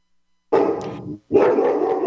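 A dog barks twice in quick succession, with loud, drawn-out, full-throated barks separated by a brief pause and no other sound around them.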